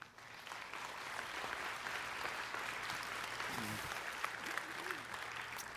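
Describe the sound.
Audience at a church gathering applauding to welcome a speaker: faint, steady clapping from many hands that lasts about five seconds without breaks.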